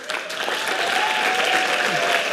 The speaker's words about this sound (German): Ja, Jubel bei der Veranstaltung, bei der Verkündung dieser Entscheidung.